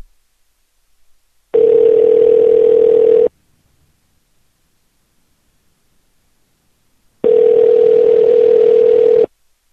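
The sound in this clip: Telephone tones while placing a call: two steady, mid-pitched tones, each about two seconds long, separated by roughly four seconds of silence.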